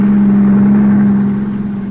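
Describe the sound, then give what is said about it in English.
A car pulling alongside during a chase gives a loud, steady, mid-pitched engine drone that holds fairly constant and eases slightly toward the end. “He drove right past us.”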